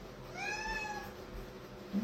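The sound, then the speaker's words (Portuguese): A cat meowing because it wants to get out through the window, giving one drawn-out, tonal meow that rises and fades against a quiet background. “esse miado aqui é porque ele tá querendo fugir, né? Querendo sair da janela.”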